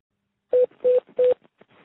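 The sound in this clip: Three telephone keypad tones sound as a number is dialed, each a short steady beep at even spacing, followed by a few faint clicks and low noise.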